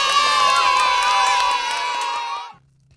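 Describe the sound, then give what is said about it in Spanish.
Children cheer, shout and whoop in a big burst of excitement for a young performer at a children's music show. The bright, loud crowd sound holds steady, then cuts off abruptly and leaves only a low hum. “Y ahora el aplauso más grande de todos, para ti.”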